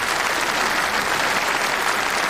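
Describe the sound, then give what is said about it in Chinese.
Steady applause from a gathered crowd at a base ceremony congratulating a flight-test team, dense clapping at an even loudness without a break. “给我鼓什么掌？一会儿文艺演出队的同志们演得好，唱得好，你们再给他们鼓掌，对不对？”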